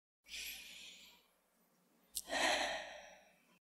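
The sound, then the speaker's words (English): A group takes a deep breath together during a church service: a soft, long inhale, a short pause, then a fuller exhaled sigh that fades out. “So take a deep breath with me.”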